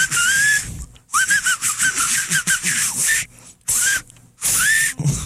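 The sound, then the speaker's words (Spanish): A battery-powered whistling keychain lets out bright, warbling whistle tones in several bursts with breathy hiss, separated by brief silences, one longer stretch sounding choppy and broken up. “Con su llavero chiflador, usted puede relajarse haciendo, mientras otros escuchan una bella sinfonía de viento.”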